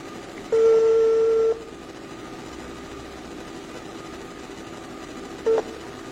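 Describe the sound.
A telephone tone sounds while a call is being connected: one steady beep of about a second, a stretch of faint hum, then a second, very short beep near the end.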